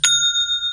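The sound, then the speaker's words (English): A Shopify sale notification sounds as a single bright, high metallic chime that strikes once and rings on with a steady, sustained tone, heard alone. “That's the sound of a sale using Shopify.”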